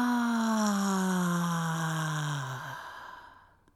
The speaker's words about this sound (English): Begin by inhaling a deep breath to the bottom of your lungs. Now release with a big